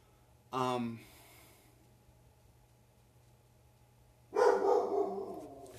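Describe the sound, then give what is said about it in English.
A dog cries in two separate bursts of harmonic whining. The first is short, near the start, and the second is longer and louder, near the end, with near silence between. “I can't concentrate with that dog crying. I'm gonna go check and see what he's doing.”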